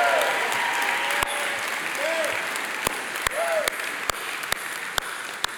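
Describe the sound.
An audience applauds in welcome for a Division II college baseball team, with steady, dense clapping throughout, a few sharper claps standing out and brief whoops rising above it.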